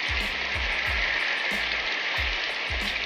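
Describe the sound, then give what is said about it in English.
Heavy rain pours down in a loud, steady hiss. Soft low thumps recur now and then underneath the constant wash. “It's raining really hard.”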